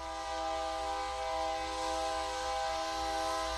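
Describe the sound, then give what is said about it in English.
A Rail Runner commuter passenger train running between Albuquerque and Santa Fe, New Mexico, sounds a sustained horn chord that holds steady and even in loudness throughout, with no talk. “That's our train that runs between central New Mexico, where Albuquerque is and where we live, north to Santa Fe, our state capital.”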